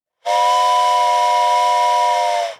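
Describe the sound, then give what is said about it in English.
A voice imitates a train whistle played in reverse: one loud, sustained, steady whistle-like tone with a breathy hiss, holding for about two seconds before dipping slightly in pitch at the very end. “That's the train in reverse. That was a good one, by the way. That was a good train whistle.”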